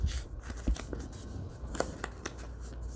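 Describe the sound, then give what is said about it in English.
Paper is folded and its creases pressed down while an index card notebook is made: a few crisp rustles and short scraping strokes, fairly faint, with no talking. “So we'll use this for the other one, the second one. And uh, just fold these in, get my little creases down.”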